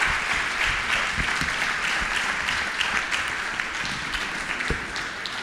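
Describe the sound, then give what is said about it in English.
An audience applauds speakers after a panel discussion with audience questions. The steady, sustained clapping holds at an even loudness for several seconds. “Give it up one more time for our speakers. Amazing job.”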